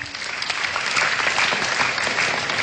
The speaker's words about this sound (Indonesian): Tepuk tangan dulu.